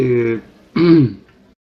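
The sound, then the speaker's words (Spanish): Throat clearing by a woman reading aloud in Spanish: two short, rough, voiced bursts separated by a brief pause, the second one louder. “esperen que me aclaro la garganta”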